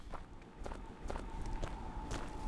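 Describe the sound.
Footsteps walk between greenhouse sheds on a farm in downtown Columbia, South Carolina: a steady series of soft, evenly paced steps over a low background hum.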